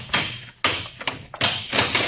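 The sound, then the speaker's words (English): Heavy smashing blows as a lock is broken: a few loud, thudding impacts in a row, each crashing in sharply and fading into a rattling tail. “All right, Buck. Smash that lock.”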